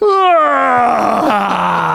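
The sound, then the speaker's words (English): A voice imitates the loud yawn of a young child of about four to six during a wedding ceremony: one long, drawn-out groaning tone that starts high and slides steadily downward, loud and alone. “And my son let out the loudest yawn. He just goes,”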